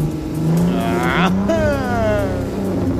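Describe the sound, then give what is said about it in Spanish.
A GWM car engine revs and accelerates in a loud, continuous drone. Its pitch climbs, then drops back as the rev eases. “Así que mire, y escucha el motor en el que estaba montado”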